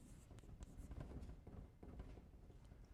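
Writing on a board during a lecture: faint scratchy strokes and taps come in quick, irregular succession, many short marks, with no talking.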